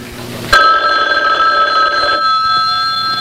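Telephone bell ringing, bursting in loudly after a short quieter lead-in and carrying on as a bright, continuous metallic ring until the end.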